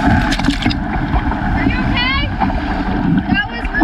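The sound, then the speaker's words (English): Canoe paddling through large waves on a lake, with a continuous rush of water, splashing and wind noise, and voices calling out over it. “On Lake Winnipeg, they paddled through large waves and almost capsized. All right, let's just paddle hard.”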